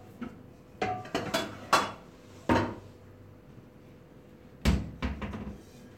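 A frying pan is taken out of a kitchen cabinet with hollow knocks and clattering. A quick cluster of sharp bangs comes first, then a pause, then a few more knocks and rattles near the end.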